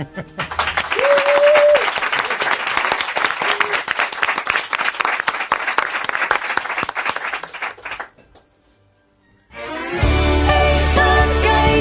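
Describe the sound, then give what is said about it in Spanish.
Loud, sustained applause and cheering from a studio audience at a radio show fills about eight seconds, then cuts off into a brief near-silence before music starts. “Vamos a pedir a los que nos están escuchando a través de los transistores que bajen el volumen porque vais a aplaudir a lo bestia.”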